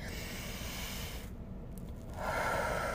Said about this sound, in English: take a breather, take a deep breath, and right now take a deep breath with me